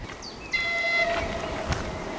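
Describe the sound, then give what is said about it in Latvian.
Train horn sounding as the train nears someone walking beside the rails on an unlit track path: a sustained, multi-tone blast rises over a steady rumbling, noisy background and then fades. “Re, kur jau vilciens signalizē, esmu pārāk tuvu sliedēm, bet man citas ceļa īsti nav.”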